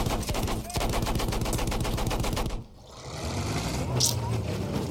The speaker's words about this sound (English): See some guys off in the distance. Fire up my machine gun.